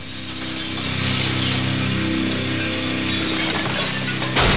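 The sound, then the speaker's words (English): Glass shatters as a helicopter crashes down through skylights, making a loud, dense, sustained crash of rattling debris and roaring noise that stops abruptly near the end. “And the craft plunges down into the skylights. The impact and subsequent explosions send glass and sparks showering downward.”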